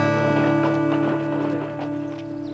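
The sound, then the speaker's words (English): Horse hooves clip-clop on a road as a rider heads to the edge of town, a steady, fairly loud run of hoofbeats that continues through the whole clip. “Red Malone rode to the town limits and sat a saddle in the middle of the road”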